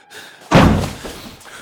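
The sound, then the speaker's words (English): A wild boar bumps against a car with a single heavy, dull thud, a deep impact that booms briefly and fades into a low rumble. “A wild boar. It paces back and forth, bumping the car again as it circles, trying to work out how to get to me.”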